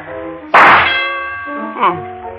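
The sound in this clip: Rifle shots striking a metal shooting-gallery target give two sharp metallic clangs with a ringing tail, the first one stronger. A sustained tonal sound runs underneath.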